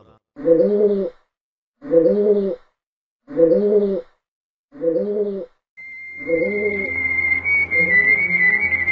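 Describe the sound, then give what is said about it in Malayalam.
Rock pigeon cooing, a common bird in Kerala: four low, burbling coo phrases in an even rhythm with pauses between, then more cooing joined by a steady higher whistling tone. “കേരളത്തിൽ എവിടെയും കാണുന്നൊരു പക്ഷിയാണ് അമ്പലപ്രാവ്. പലജാതി പ്രാവുകൾ ഇവിടെയുണ്ടെങ്കിലും സർവ്വസാധാരണമായി കാണാനാവുക അമ്പലപ്രാവുകളെയാണ്.”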